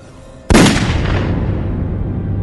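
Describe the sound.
A single gunshot from a bandit's gun: a sharp, loud blast breaking a quiet start, followed by a long rumbling, ringing decay that fades slowly.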